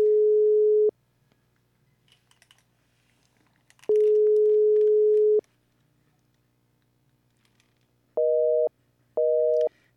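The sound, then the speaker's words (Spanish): Telephone tones from an outgoing call: two long, steady, pure tones separated by a silent gap, then two shorter, higher two-note beeps. All are loud and clean, with near silence between them. “Vamos llamando. ¿Escuchan la llamada?”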